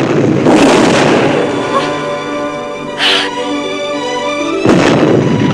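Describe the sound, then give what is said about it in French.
Cannon fire from a merchant ship shooting at pirates: a few sharp booming bursts rise over a dense, loud, steady roar. Sustained tonal lines run beneath the blasts throughout. “Un navire marchand Il tire sur les pirates”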